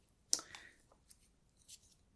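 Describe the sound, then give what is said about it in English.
Pens and pencils are put away after a sketch: a few soft, brief clicks and taps with light rustling between them, faint and without talk. “I'll just put these pens away and pencils”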